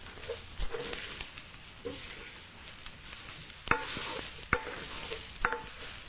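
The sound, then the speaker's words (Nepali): Food stirred in a pan as it cooks: a spoon scrapes and taps the pan with a few sharp clinks over a steady, faint sizzling hiss. “यसलाई छारैतिर मजाले पाक्न दिँदै चलाउँदै गर्नुपर्छ”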